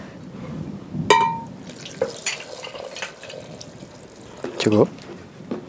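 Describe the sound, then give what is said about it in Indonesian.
Water is poured into yogurt to make a smoothie, heard as brief splashes and trickling bursts scattered under people talking. “Karena itu yogurtnya udah agak asam, sip. Ambil kasih air. Cukup.”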